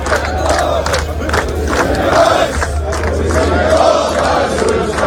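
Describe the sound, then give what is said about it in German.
Austrian football fans on their march in Texas before the Austria vs Argentina match: a dense crowd chanting and shouting together. The roar stays loud and steady throughout. “Und seit einer halben Stunde läuft da in Texas aktuell schon der Fanmarsch.”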